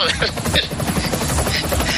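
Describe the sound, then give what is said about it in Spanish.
Helicopter in flight, its rotor giving a loud, steady, rapid thumping chop over broad engine and wind noise throughout. “voy a intentar hacer lo que pueda con el helicóptero, ¿eh?”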